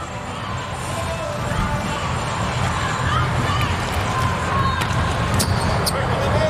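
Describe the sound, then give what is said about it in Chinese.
A volleyball serve is struck during an international match, with a few sharp slapping hits over a steady crowd hubbub while a commentator talks. “莱曼斯基的发球，”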